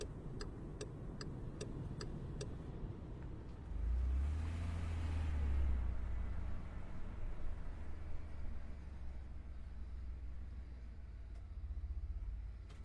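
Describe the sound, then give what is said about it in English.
A car pulling over with its motor running: a series of sharp ticks opens, then a low engine rumble swells in the middle and settles into a steady, subdued idle hum. “We're almost to the time machine. Pull over here.”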